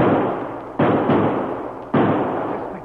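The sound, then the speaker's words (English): A marshal fires gunshots at a fleeing masked man. A few loud, sharp reports ring out at uneven intervals, and each one trails off in a long, fading rumble. “I never in my life missed as wide as that. You let him get away. Clean away. Shucks, I seen my bullets hit the dirt 20 feet away from him.”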